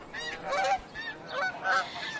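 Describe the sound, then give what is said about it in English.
A snow goose honks in flight, giving a series of faint, nasal honks in uneven bursts. “It's the snow goose, dropping out of the eastern sky.”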